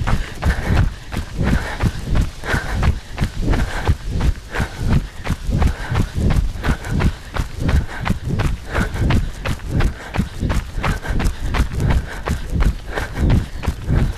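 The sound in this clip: A person running during an interval workout, with many rapid, evenly spaced footfalls thudding at a quick, steady rhythm from start to finish.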